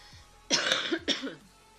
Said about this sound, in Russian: Вот он, этот кашель противный.